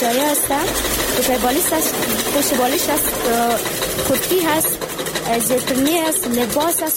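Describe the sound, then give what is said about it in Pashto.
Sewing machines run in a tailoring workshop, a steady, busy mechanical whirring that continues for the whole clip beneath people talking. “په دې خیاطي کارخونه کې چې یو وخت ګڼ شمېر ماشینونه چلیدل اوس یوازې څو محدود ماشینونه فعال دي.”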